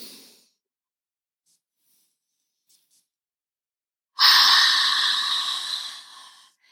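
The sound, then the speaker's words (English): A deep inhaling breath rushes in after a long silence, loud, airy and hissing, then tapers off gradually over about two seconds. “So this fourth one, I want you to make it count. I want you to inhale in.”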